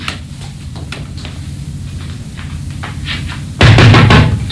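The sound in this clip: Loud knocking on a door: a run of sharp, repeated raps builds to a heavier, louder burst of pounding near the end.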